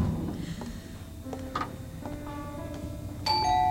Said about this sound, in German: Wir werden weiter klingeln.